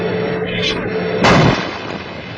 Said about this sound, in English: The first enemy tank was hit squarely by a direct hit to the turret thanks to the power of the STU-C's 75mm gun.